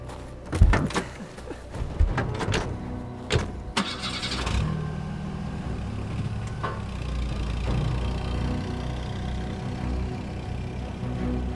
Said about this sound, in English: generator's on